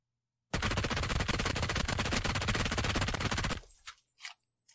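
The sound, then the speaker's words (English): A silenced P90 submachine gun fires one long, continuous burst of rapid shots lasting about three seconds, then a quieter tail with a few faint trailing sounds. “Is it Tommy? No, it was P90. I set you up for that. I said it was silenced.”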